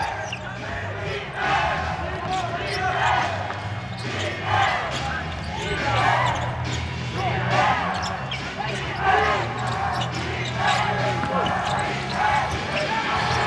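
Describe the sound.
Basketball dribbling as a player slowly brings the ball across half court near the end of a game, with bounces blending into a steady noisy wash of crowd sound throughout.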